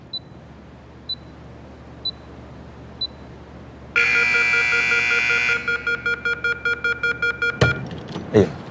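Electronic beeping from a timer that starts when a door is locked: four evenly spaced high beeps, then a steady buzzing tone, then a quick run of short pulsed beeps, ending with a couple of dull thuds.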